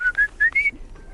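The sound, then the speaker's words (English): A tiny, delicate black-and-white bird with a thin beak calls in four thin, high, clear whistled notes in quick succession, each slightly rising. A softer, fainter tail follows, and no one speaks. “It's like a tiny little delicate bird with a thin beak and black and white.”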